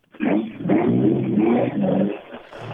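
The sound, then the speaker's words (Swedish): Engine of a yellow Opel Ascona B arriving at a motorsport event, a loud, steady droning note with rich harmonics that holds for over two seconds, dipping briefly near the end. “Nu bil inne. En Ascona B, en gul Ascona B.”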